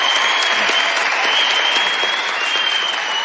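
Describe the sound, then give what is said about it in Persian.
A studio audience applauds with dense, steady clapping that stays loud and even from start to finish. “ببین چه حال کردن بابک تماشاگرا تو برنامه امروز، حالا هیچ کس نتونست انقدر به وجدشون بیاره بلندشن وایسن براش دست بزن.”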